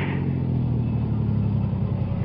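Steady low engine rumble from a car coming to a halt at the foot of a steep grade, a dense, continuous hum with no voices over it.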